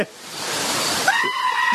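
A goat bleats once: a loud, wavering, nasal cry with a strained edge that comes after a stretch of steady hiss and holds to the end.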